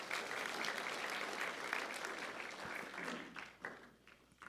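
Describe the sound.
Warm audience applause welcoming guests to the stage: dense, steady clapping that fills the whole stretch and thins slightly toward the end.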